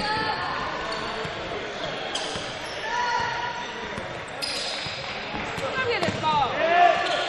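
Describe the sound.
Basketball dribbled on a court during a game, its bounces blending into steady crowd noise and a busy, roughly even din.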